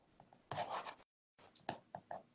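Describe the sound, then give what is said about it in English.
Scratchy strokes of a name being written down by hand, faint, coming in a few short bursts with a brief silent pause in the middle. “I'm writing your name down, though, because I do want to be praying with you on that.”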